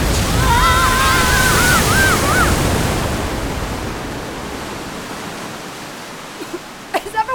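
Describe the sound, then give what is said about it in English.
Flood water rushes in a loud, dense roar that slowly fades. A brief wavering tone sounds at the start, and a few faint knocks come near the end. “What's that noise? Flood! Hold on to the printing press! Gather up the papers!”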